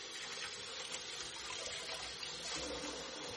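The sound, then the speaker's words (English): Running tap water over hands being washed at a kitchen sink after chopping parsley, a steady soft rushing hiss that flows without a break and without voices. “I'm just going to wash whatever's off my hands.”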